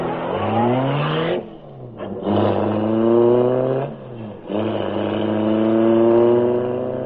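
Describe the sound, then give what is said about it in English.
A car engine revs hard as it races off, loud and alone, its pitch climbing steeply in several surges with brief drops between them, like gear changes. “Ride with Britt Reed as he races toward another thrilling adventure”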